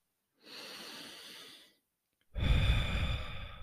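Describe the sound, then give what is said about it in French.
A single deep breath taken as a calming exercise: a soft, airy inhale through the nose, a short pause, then a louder, fuller exhale out through the mouth. “Ferme les yeux et on va prendre cinq grandes respirations.”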